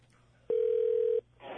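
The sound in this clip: A telephone call being placed gives a single steady, mid-pitched tone lasting under a second, followed by a short burst of soft hiss.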